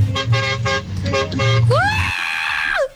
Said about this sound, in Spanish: ¡El pito grande! Ave María, Karina. Es que la mula tiene pito grande,